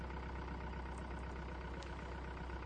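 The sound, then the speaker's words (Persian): A minibus engine on a road by a cabin gives a steady, dense rumble. The idling hum stays even and loud throughout, with faint higher squeaks now and then. “یه مینیبوس در جاده به کلبه نزدیک میشه. مینیبوس توقف میکنه.”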